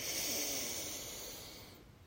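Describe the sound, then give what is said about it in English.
A deep inhale drawn in through the nose, a steady airy rush with a slightly snore-like rasp lasting about two seconds and gradually fading, heard alone with no talking. “Please join me in taking another big inhale through our nose”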